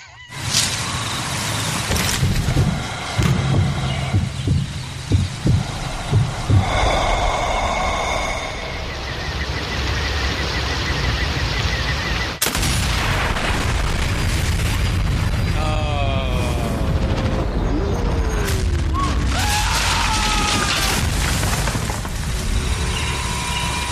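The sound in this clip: Gunfire and explosions from the video game Sniper Elite 4: several sharp bangs early on, then a continuous dense layer of battle noise with a sudden hard impact midway and brief falling whistles later.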